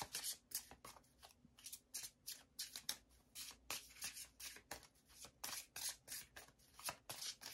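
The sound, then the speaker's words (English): Handling and shuffling of a tarot deck, with many quick, papery swishes and rubs in an uneven rhythm, faint and without talk. “We'll pull another card here from this deck.”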